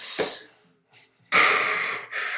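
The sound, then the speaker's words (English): A voice imitates a man's heavy, out-of-breath panting: a few loud, harsh breathy huffs and rasps separated by short quieter pauses, with no words spoken. “He's just very out of breath.”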